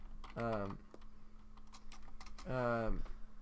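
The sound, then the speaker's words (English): Typing on a computer keyboard while searching a website: a few faint, scattered key taps fall between two short voiced sounds at the start and end. “I'm trying to control F this because I just, like, had to click on the website”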